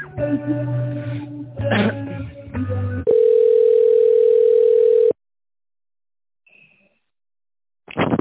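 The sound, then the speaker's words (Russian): Steady single-pitched telephone tone while a call is being transferred, sounding alone for about two seconds before the line goes silent. “Минутку, сейчас я вас соединю.”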